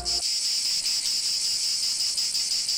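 Cicadas sing on a summer day in a loud, steady, high-pitched buzzing drone that continues without a break for the whole clip.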